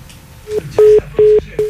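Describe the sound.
Telephone keypad dialing tones: four steady, evenly spaced beeps of equal pitch from a phone being dialed during a call that has dropped, heard alone with no talk.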